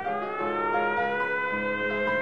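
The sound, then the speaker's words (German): Air raid sirens wail over Warsaw on 1 September 1939 as bombers approach, producing a loud, continuous, harmonically rich tone whose pitch drifts slightly upward without a break. “Die Sirenen heulen. Sie künden großes Unheil an, denn die Kriegserklärung Hitlers ist über Radio Warschau verbreitet worden.”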